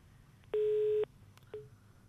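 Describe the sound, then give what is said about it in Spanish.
A telephone tone sounds as a phone call cuts off: one steady, mid-pitched beep lasting about half a second, then a much shorter beep after a pause, both fairly faint. “Ahora se cortó, pero bueno, ya agarraremos la llamada.”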